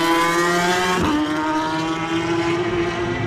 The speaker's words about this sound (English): Josh Brooks on his super stock bike passing our window